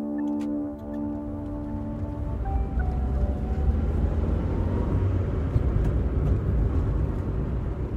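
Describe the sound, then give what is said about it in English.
A car drives south along Alaska's Seward Highway in mid-June, giving a broad, continuous road rumble with no talk. A faint sustained cluster of tones at the start fades out after a couple of seconds. “Today I'm driving south along the Seward Highway, looking to get out of town to sneak in a quick overnight camping trip.”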